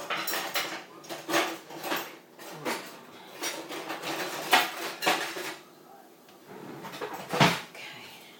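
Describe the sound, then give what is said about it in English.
Metal fish slice and pan clattering during cooking, with many sharp, irregular clinks and scrapes of utensils against cookware, some louder knocks among lighter rattles. “Let's get the fish slice out to turn.”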